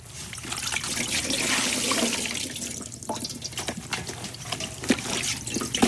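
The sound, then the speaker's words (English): Water sloshes and splashes as clothes are washed by hand in a wash bowl, a continuous wet swishing with many small irregular splashes and drips, moderately loud throughout. “So I did one of a sort of wash bowl, and I'm washing clothes by hand.”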